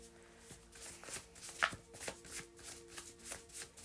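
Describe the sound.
Tarot cards being shuffled: soft, rapid ticking and riffling in a steady rhythm, quiet throughout, with one slightly sharper snap partway through and no talking.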